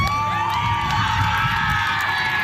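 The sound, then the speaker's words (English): Cheering from a women's baseball team from Manitoba after a home run at a national championship in Winnipeg: loud, continuous high-pitched shouts and whoops from many players, sustained throughout. “Team Manitoba erupting in cheers after scoring a home run Sunday.”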